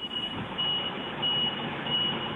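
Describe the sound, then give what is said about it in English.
A truck reversing: a high, steady warning beep repeats slowly and evenly over a continuous low engine rumble. “Are you reversing a truck? I sure am.”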